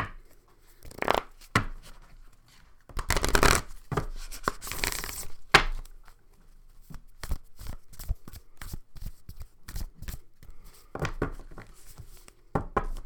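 A deck of cards being shuffled again, with many quick riffling and slapping bursts of uneven loudness: dense flurries alternate with scattered short flicks throughout.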